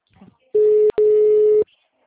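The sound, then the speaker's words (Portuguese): Telephone ringing tone on an unanswered call: two steady, mid-pitched electronic tone bursts, the first shorter, separated by a brief break, with a faint murmur just before. “Tô ligando, ó. Não atende.”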